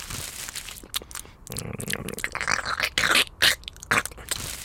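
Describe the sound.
Crunching and scraping of someone chewing mixed screws as if eating a snack, with irregular crisp bites and grinding. Several sharper, louder crunches come toward the end, and no voices are heard.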